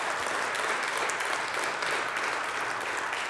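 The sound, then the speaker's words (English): An audience claps together in a church sanctuary, a dense, steady wash of applause that holds at an even level throughout without any voices. “You may not have stood up and clapped in the sanctuary before. But if a lion can eat straw, can we not clap together?”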